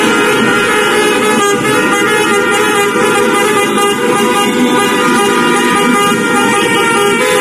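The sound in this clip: Car horns honk during street celebrations of Spain's World Cup win, heard as a loud, continuous wash of traffic noise with overlapping horn blasts and engine rumble that never lets up.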